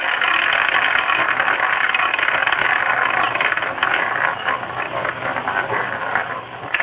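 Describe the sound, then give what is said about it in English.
A spinning prize wheel clicking: a dense, rapid stream of ratcheting clicks rattling on steadily and fairly loud for several seconds without pause. “let me spin the wheel”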